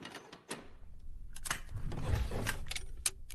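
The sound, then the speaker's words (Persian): A cupboard door is opened and keys jangle, making a faint series of scattered metallic clicks, taps and rattles over a low background rumble. “راستی خواهش میکنم اگه زحمت نیست در این گنجه رو باز کنید”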